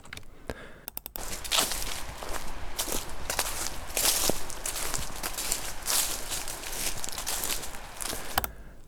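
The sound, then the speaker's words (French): Footsteps crunch and swish through grass in a steady, unhurried series of soft strides, each step a brief rustling burst, with faint background ambience between them. “Ça, des pas dans les herbes. Ok, des pas dans les herbes.”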